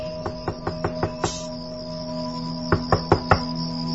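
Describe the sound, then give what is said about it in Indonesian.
Knuckles rap on a house door at night: six quick, even knocks, a pause of over a second, then four more, each sharp, over a soft steady hum. “Namun ketika aku baru saja selesai menyantap makananku, kudengar ada yang mengetuk pintu rumah ini.”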